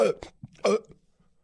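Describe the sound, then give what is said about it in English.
A voice imitates burps with two loud, throaty bursts. Short, faint guttural sounds come between and after them, and nothing else is heard. “They just can, they can burp their vote. CNN can say, okay, time to vote. Two burps for Joe Biden.”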